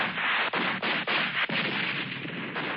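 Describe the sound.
Army gunfire aimed at three huge UFOs in the sky: a steady, dense roar of shooting broken by a few sharp cracks, with no voices over it.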